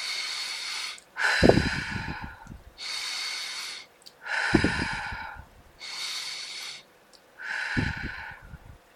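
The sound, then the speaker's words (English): Three slow, deep breaths, each an airy, hissing inhale followed by a fuller, rougher exhale, in an even, unhurried rhythm with short gaps between them and no talk. “Take three deep breaths right now.”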